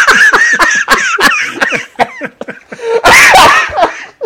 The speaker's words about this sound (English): Sorry, I had a small coughing fit.